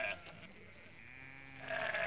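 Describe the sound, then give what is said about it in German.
Sheep bleat at feeding time, a few nasal, wavering bleats with the longest and loudest at the end, over a low farmyard murmur. “Warum genau das Schaf? Was macht das Schaf besonders?”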